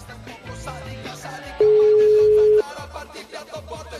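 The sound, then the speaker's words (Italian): A telephone ringing tone for a call that goes unanswered: a single steady, pure electronic tone about one second long, clearly louder than the busy background sound around it. “Suona il telefono della Zanzara.”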